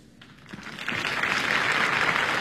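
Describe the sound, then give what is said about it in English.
Audience applause greets a third-act entrance in a stage show. It swells from faint scattered clapping into a dense, steady roar of hands that holds to the end, with no talk over it. “Applauding a third act entrance.”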